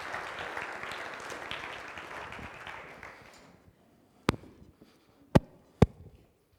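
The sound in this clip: An audience at a morning church gathering applauds to welcome a speaker to the stage. The clapping is steady and dense, then fades to silence. A few sharp, isolated knocks follow.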